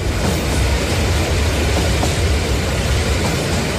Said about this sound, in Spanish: el último tren está a punto de partir. Ocupen sus asientos.